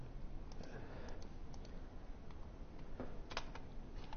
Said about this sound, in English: It's very awkward to type here when this is on... Oopsie.